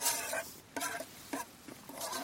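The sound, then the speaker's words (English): A mixing bowl is scraped clean after muesli: several faint, short, rasping strokes in an uneven rhythm, with brief gaps between them. “scrapes the bowl and possibly licks it out”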